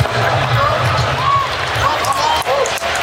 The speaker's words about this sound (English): And now the Pelicans can just dribble it out.